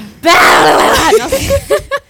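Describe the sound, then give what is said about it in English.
A person releases a held breath in one loud, breathy exhale. A few short voiced breathy bursts follow it. “Breathe in. Yeah, hold your breath. Hold it. Hold it. And now release.”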